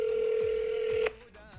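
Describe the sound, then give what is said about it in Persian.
A steady telephone tone holds for about a second as someone starts dialing a call, then stops abruptly with a brief click, leaving near quiet. “بیاین بریم به آرشام زنگ بزنیم خب ببینیم آرشام چی میگه”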